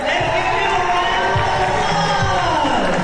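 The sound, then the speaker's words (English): Middle school students at J.H. Phillips Academy in downtown Birmingham cheer each other on. Steady crowd cheering and children's shouts carry a few dull thumps underneath. “Middle school students cheered each other on inside J.H. Phillips Academy in downtown Birmingham.”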